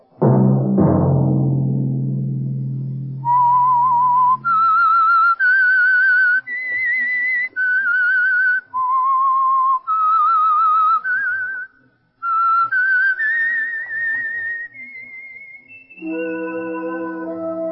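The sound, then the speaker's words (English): A whistled tune used as the signature signal of a radio program sponsored by an oil company: about a dozen long, clear notes stepping up and down, loud and alone, opening after a low resonant chord and closing on a sustained instrumental chord. “Let that whistle be your signal for the Signal Oil program, The Whistler, each Sunday night at this same time.”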